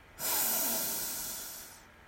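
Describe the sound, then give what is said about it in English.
A single deep breath gives a long, airy hiss that starts abruptly, then slowly fades over about a second and a half, heard alone with no talk. “So let's take a deep breath in. And out. In.”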